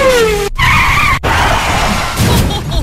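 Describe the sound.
Tires of a Porsche 996 Carrera 4 skidding, a loud, sustained squeal with a wavering tone over steady engine noise, cut off briefly twice before resuming.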